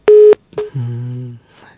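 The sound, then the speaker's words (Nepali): A telephone line tone sounds as a phone call is cut off. A loud, short electronic tone burst is followed by a longer, steady, lower tone that lasts under a second and then drops away, leaving faint residue. “केही कारणवश काटियो होला तपाईँको phone”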